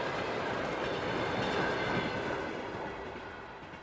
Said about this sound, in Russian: Дезориентированно оглядываюсь и не сразу осознаю, что я в поезде.